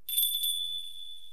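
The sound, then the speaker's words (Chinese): A small bell worn on the left wrist rings with a few quick bright jingles, then one clear high tone that lingers and slowly fades. “这是铃铛？为什么必须要戴在左手腕？而且戴在手腕上不会一直响吗？”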